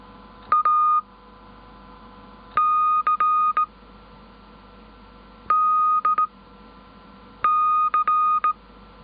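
A Morse code test group sent as steady, high-pitched electronic beeps, keyed in four separate clusters of short and long tones, with quiet gaps between them.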